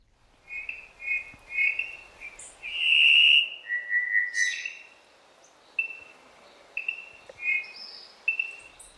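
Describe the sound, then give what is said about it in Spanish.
A Cuban solitaire (Myadestes elisabeth) sings in Cuba, giving a series of clear, high whistled notes of varied pitch, with one louder sustained whistle near the middle and shorter phrases repeating toward the end. “pocos paisajes sonoros resultan tan admirados en Cuba como el que compone con maestría El solitario cubano, nombre científico Miadestes Elizabeth.”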